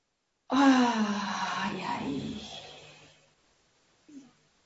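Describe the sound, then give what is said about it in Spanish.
Deep, audible exhale with a voiced, sighing quality during a guided breathing exercise, long and gradually fading, followed after a pause by a short, faint breath. “Inhalo y aflojando. Una vez más, inhalo.”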